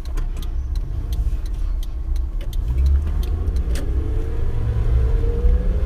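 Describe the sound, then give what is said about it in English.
Continuous low rumble of a car being driven, a steady engine and road drone that swells slightly midway, dotted with faint scattered clicks and no talk. “all of the car noise and all that stuff is a problem for you, if you'd rather have it silent”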